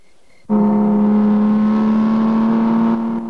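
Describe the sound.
A car engine roaring as it overtakes another vehicle and drives at top speed along a road: a loud, steady droning hum that starts abruptly and holds at an even pitch throughout.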